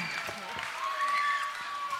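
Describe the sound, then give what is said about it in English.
Audience applause for two performers at an improv comedy show, a short burst of moderate, steady clapping lasting about two seconds. “Could you guys give a round of applause for Sam and for Becca?”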